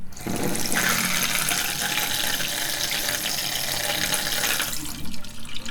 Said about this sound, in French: Tu peux refaire couler de l'eau, s'il te plaît